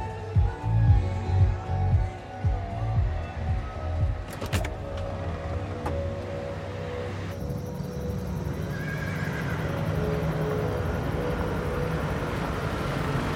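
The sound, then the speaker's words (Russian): A car engine rumbles unevenly as an elderly man drives up to a farm, with a horse whinnying partway through. “Пожилой мужчина подъезжает к ферме.”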